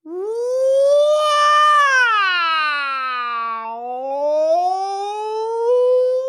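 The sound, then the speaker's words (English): A voice imitates a wailing wolf in one long, unbroken howl. Its pitch climbs, sinks low, then rises again, staying loud and tonal throughout. “it's a noise that sounds like a wailing wolf. It goes,”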